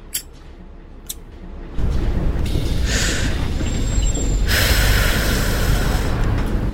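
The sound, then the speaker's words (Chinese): A city bus pulls into a bus stop: a quiet stretch gives way to a sudden loud, rumbling engine roar, with bright hissing bursts like air-brake releases partway through. “756公车进站，本车开往淡江大学。”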